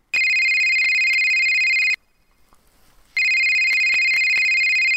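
A telephone rings with a steady, high electronic tone in two long, loud bursts separated by a short silent pause.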